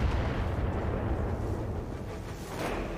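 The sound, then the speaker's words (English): Long-range missiles striking a Locust mech in a video game create a dense, continuous rumble of explosions, loud and steady throughout with no clear gaps. “The long-range missiles are shooting at the Locust.”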